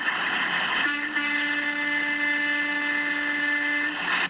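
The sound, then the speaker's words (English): A truck horn from the trucker convoy passing through Sturgeon Falls, Canada, holds one long, steady tone for about three seconds over a constant noisy background. “Lots of convoy coming through Sturgeon Falls still. Let's hear some horns from the small fringe minority of Canada for these cities.”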